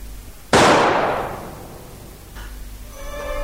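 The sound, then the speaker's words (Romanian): A single sharp gunshot cracks out loudly and rings down in a long fading tail. Fainter sounds follow near the end. “S-a împușcat Ping.”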